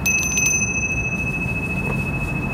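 A small hand bell rings in a few quick, bright strokes at the start, leaving a thin high tone that lingers over a steady low rumble.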